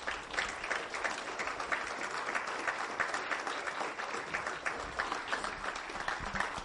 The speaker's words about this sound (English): So I want to invite you, as they come up on stage, can you give them a very, very warm Quarry Rock welcome?